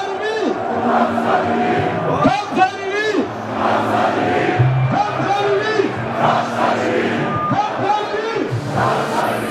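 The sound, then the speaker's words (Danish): A crowd in Aarhus, Denmark, celebrates a championship gold with loud shouting and chanting. Bursts of massed voices rise and fall over a constant roar. “Det er, at en guldfejring i Danmark lyder sådan her.”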